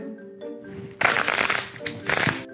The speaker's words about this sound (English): This is probably the first time that a deck of cards has ever been arranged in this specific order in history. First time. Think of all the decks of cards being shuffled around the world right now.